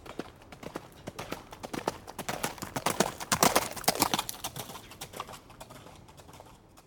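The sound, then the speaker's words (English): Hooves trotting down a hallway: many quick, hollow clip-clop strikes in a brisk, uneven rhythm. They swell toward the middle and then fade gradually. “students and staff have reported hearing the sounds of hooves trotting down hallways.”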